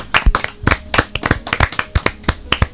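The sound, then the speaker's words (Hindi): Children clap for a classmate about to recite a poem, many sharp, uneven hand claps in quick succession, loud and with no voices. “बच्चों जरा एक बार ताली बजा दो तविता”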